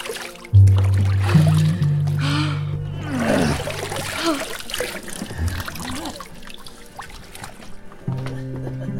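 Water splashing and sloshing during a bath as someone gets soaked, a continuous wet churning that carries on throughout over sustained low droning tones.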